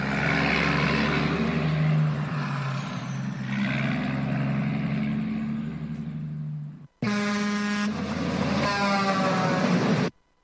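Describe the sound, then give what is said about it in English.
A convoy of 18-wheeler semi trucks gives a loud, steady, heavy engine drone for about seven seconds. Then blaring air horns sound, with a brief gap before them and an abrupt stop at the end. “Dang, looks like a bunch of us 18-wheelers are lining up now. Heck, we got us a convoy heading for Jackass Joe's in Crescent Junction, Utah.”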